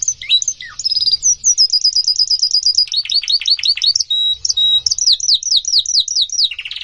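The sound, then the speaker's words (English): Songs of inbred and outbred birds: rapid series of loud, high chirps and repeated falling notes in quick rhythmic runs, sung without pause and with no voices. “the researchers found that the songs of inbred birds and those of the other outbred birds”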